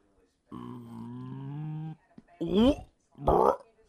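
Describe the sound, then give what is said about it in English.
A long, low, voiced burp lasts more than a second at a steady buzzing pitch, then two short bursts of speech follow. “oh, sorry, I just burped.”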